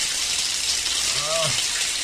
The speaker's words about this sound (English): I'm rinsing all the fog and mildew off.